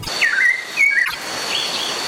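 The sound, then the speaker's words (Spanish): Whistled song of a mirla thrush from Colombia's Orinoquía region: two clear, fluting phrases that dip and then hold a level pitch, followed by fainter, thinner whistling over a soft steady hiss. “Este sonido corresponde al canto del ave Mirla y hace parte del proyecto A Ritmo de Pájaros de la Fundación Corocoras.”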